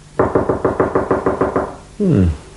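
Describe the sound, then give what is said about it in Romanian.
Knocking on a door: a quick, even run of many loud knocks. A short pause follows, then a voice. “Și totuși, uite că bate cineva.”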